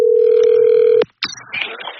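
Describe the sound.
A telephone dial tone on an outgoing call during a prize draw hums loud and steady for about a second, cuts off with a sharp click, and after a brief silence gives way to faint, scratchy line noise.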